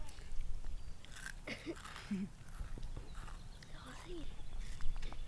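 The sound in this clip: Crunchy bites and chewing of a crisp fried pastry, a flower-flavoured treat like a less sweet donut, giving a few sharp crackling crunches over steady low background noise.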